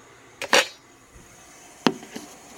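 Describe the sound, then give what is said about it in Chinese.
Sharp clicks from turning on a gas stove in a kitchen while a pot of water waits to boil: two distinct crisp clicks about a second apart, then a fainter tick, with no talk. “然后打开瓦斯炉”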